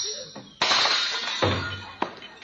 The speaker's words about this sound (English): Oh, no, don't pull that tablecloth. You'll smash all those dishes.